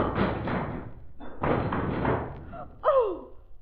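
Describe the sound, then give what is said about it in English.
Plaster crumbles and breaks away from an old replastered wall in two rough, crackling bursts with thuds as a body falls out, followed by a short gasping vocal cry. “New plaster's breaking away from the original wall.”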